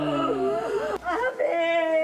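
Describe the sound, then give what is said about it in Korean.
Mournful lamenting cry with a melodic line, a mourner's wail over a death: one voice sobs through sustained, wavering pitches that slide up and down in short phrases, loud and alone. “이 울음 소리에 선율이 들어가 있다는 것이 제 인상 깊었던 것 같아요.”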